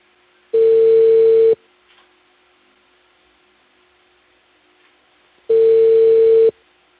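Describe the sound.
Telephone tone heard while placing a call: two steady, one-second electronic tones at a constant pitch, separated by about four seconds of near silence.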